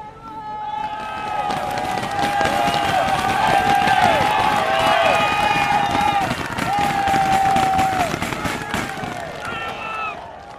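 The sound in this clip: Roadside cycling fans cheer and yell continuously as riders pass on the Puy de Dôme climb during the Tour de France 2023, about 5 km from the top; shrill whistles ride over loud, dense crowd shouting throughout.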